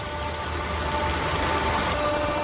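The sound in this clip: Rain falls in a steady, even hiss of dense patter that holds at a constant moderate level throughout.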